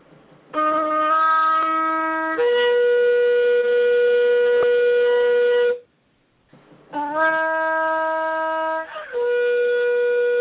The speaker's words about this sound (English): Let me sound the shofar again.